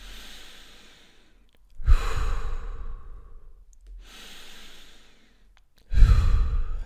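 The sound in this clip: Deep, airy breathing during a Wim Hof breathing exercise, with a few slow, rhythmic breaths in and out. Loud, rushing breaths alternate with softer ones, and no one speaks.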